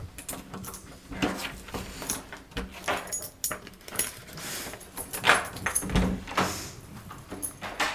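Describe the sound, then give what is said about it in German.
Keys jangling and a lock being turned repeatedly on a secured basement server-room door, giving many sharp metallic clicks and rattles of uneven rhythm. “Serverraum steht im Keller wird die so mit Schlüsseln gesichert.”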